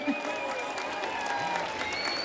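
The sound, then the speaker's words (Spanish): Strong applause from a live concert audience in Cartagena after a band's set: dense, vigorous clapping mixed with cheering voices, holding loud and steady throughout. “Otro fortísimo aplauso para ellos, qué por favor.”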